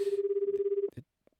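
A telephone rings on an outgoing call: one rapid warbling burst lasting just under a second, cut off abruptly and followed by a brief click.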